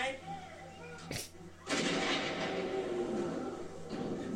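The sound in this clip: Missile launch effect in a game: a sharp crack, a short dip, then a loud, sustained, roaring blast that stays broad and heavy until the end.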